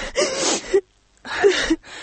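A woman crying in grief over her son, heard as two bursts of sobbing with gasping, wheezing breaths and a brief quiet pause between them.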